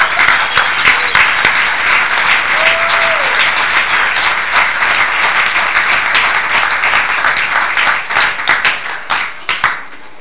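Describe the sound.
Audience applause welcoming a speaker at an evening gathering: loud, dense clapping that holds steady for about ten seconds, then thins into a few scattered claps at the end.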